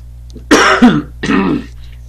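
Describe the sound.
A person clears their throat thickly through phlegm in two rough, gravelly bursts, the first longer with a harsh catch near its end and the second a steadier rasp, with no talking around them.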